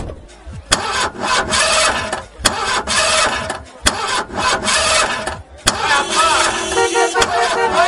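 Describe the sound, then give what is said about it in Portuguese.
A powerful sports car engine of about 300 horsepower, quick enough to reach 100 km/h in under six seconds, starts up and roars loudly. The sound is steady and dense, broken by several sharp bursts. “300 cavalos. Vai de 0 a 100 em menos de 6 segundos. Ai, eu não acredito, você tem uma igualzinha do Magnum. Ai, meu Deus, eu sempre quis andar numa máquina dessas.”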